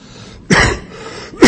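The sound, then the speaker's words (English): Throat clearing from a tickle in the throat: two rough, loud bursts a little under a second apart, with quiet between them. “Excuse me, I get a little tickle in my throat.”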